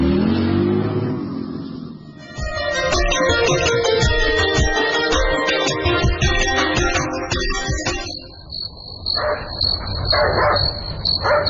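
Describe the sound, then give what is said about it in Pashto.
A dog barking, with repeated barks over a steady tonal drone in the middle, then sharper yelps near the end. “نه پوهیږم چې دا سپای ولې غاپي خامخا خبره شته”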